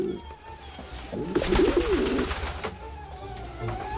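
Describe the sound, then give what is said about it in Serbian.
Pigeon cooing: a low, warbling coo that swells to a louder burst in the middle and then trails off over faint background noise. “Golubovi su spori, ali pouzdani. Iš, iš, boga na ptičurino, iš!”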